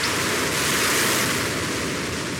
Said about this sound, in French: Un océan gronda.